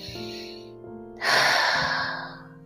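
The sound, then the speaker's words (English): A deep inhale through the nose during a calm breathing exercise, a long airy hiss that swells quickly and then fades slowly, over soft sustained musical tones. “Just begin to breathe calmly and deeply in through your nose and out through your mouth several times. So do a few cleansing breaths. So inhale through your nose.”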